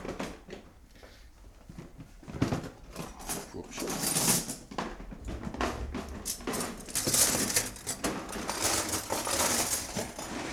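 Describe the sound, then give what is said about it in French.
Knives and forks clatter as cutlery is sorted and checked crate by crate, a fairly faint, continuous jangle of metal clinks swelling and easing in uneven bursts. “Peut-être que je vais l'aider à terminer les couteaux d'abord. Ça, elle est vide. Eh oui, parce qu'il ramène un peu tout mélangé. Du coup, il faut bien vérifier chaque caisse. Oui, c'est fourchette.”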